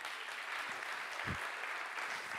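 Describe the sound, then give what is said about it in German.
Applause from an audience at a church gathering, a steady, dense patter of many hands clapping that holds at an even level throughout, with no voices over it. “Applaus, bitteschön.”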